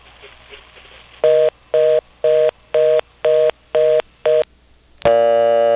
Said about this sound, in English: You don't even get the whole number dialed, and it's already going to the recording.